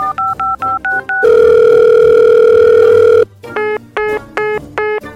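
Telephone tones after a call is hung up and redialed: a run of short, evenly spaced beeps, then a loud, long steady tone, then more pulsed beeps in an uneven rhythm.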